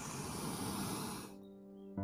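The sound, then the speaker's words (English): A long, deep breath drawn in through the nose during a guided breathing exercise: a loud, airy rush lasting over a second, followed by soft sustained tones. “Let's take one last deep inhale together and I'll count us there. Let's breathe in.”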